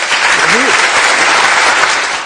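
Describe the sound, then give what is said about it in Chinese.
Audience applause after a wind-instrument piece: a dense, steady patter of many hands clapping at even loudness for the whole stretch, with a brief voice sounding over it early on. “还得给你掌声。”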